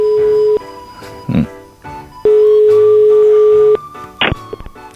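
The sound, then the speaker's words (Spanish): Ringing tones of an incoming call to a radio phone-in: two long, steady, buzzing tones separated by a pause, with a few short noisy bursts between them. “Mira, tenemos otra llamada en la noche.”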